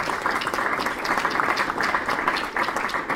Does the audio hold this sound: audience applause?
yes